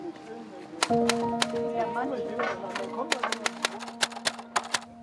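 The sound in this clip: Typing out a poem order on a typewriter: many sharp, irregular keystroke clicks, growing more frequent toward the end, with a voice talking early on.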